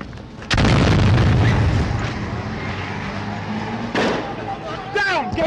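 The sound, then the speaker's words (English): A grenade explosion in Mosul, Iraq: one sharp, loud blast followed by a long, low rumbling decay, then a second burst a few seconds later and a shouting voice at the end. “Grenade! Get back!”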